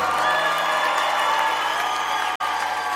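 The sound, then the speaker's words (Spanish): An audience bursts into sustained applause with some cheering, a loud and steady wash of clapping that carries through nearly to the end. “Denle más fuerte ese aplauso.”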